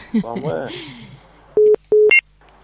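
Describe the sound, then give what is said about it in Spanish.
Telephone incoming call tone: electronic beeps, two short steady tones at the same pitch followed by a higher one, coming right after a brief stretch of talk. “hay una llamada entrante”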